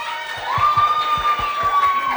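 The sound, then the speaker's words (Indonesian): Audience applause and cheering after a presenter is introduced: a dense, steady wash of clapping for about two seconds, with a sustained high whistle running through it. “Tepuk tangan dulu dong.”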